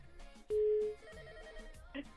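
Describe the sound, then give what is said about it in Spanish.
A telephone rings after a call is dialed: a single short, steady ring tone, quiet over a faint background. “Voy a marcar. A ver, vamos con la otra llamada.”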